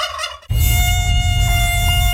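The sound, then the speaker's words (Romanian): A biting insect's thin, high-pitched buzzing whine starts abruptly after a brief opening sound, then holds steady and loud to the end. “La semnalul următor vei fi ciupit. Ciupiturile de insecte nu mai sperie pe nimeni.”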